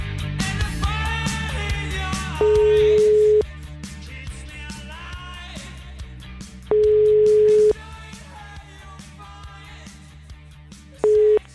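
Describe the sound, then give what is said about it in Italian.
Telephone ringing tones while a number is being called: three steady mid-pitched beeps, each about a second long, at even intervals, the last one cut short, over a busy background of other sound. “abbiamo trovato il numero del vice sindaco di Norcia, eh. Aspetta, aspetta che lo chiamiamo”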